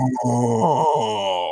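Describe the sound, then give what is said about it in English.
A long, involuntary groan of dismay from one person, voiced, low and continuous for the whole stretch, its pitch wavering and sagging slightly without a break. “oh. It was longer than that. I'm trying to save our listeners from hearing just a really long, long groan.”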